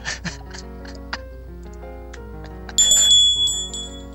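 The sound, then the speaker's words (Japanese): A small bell on a café table is rung once with a bright, clear ring that follows a few soft ticks and quiet tones, then fades slowly. “全然今必要ないんですけどベルを鳴らしときます。”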